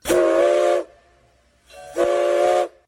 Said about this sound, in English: the sound from a train whistle or horn has meaning and is not just random noise? First of all, two whistles, two short blasts